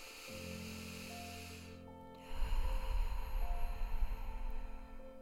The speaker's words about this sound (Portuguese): Respira.